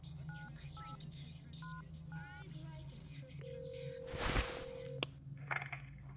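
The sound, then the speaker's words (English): Touch-tone telephone dialing: a quick series of short dual-tone beeps over a steady low hum as a number is keyed in, followed by a louder rushing burst and a sharp click. “I disconnected from Mark, moved away from my desk, and frantically dialed my wife.”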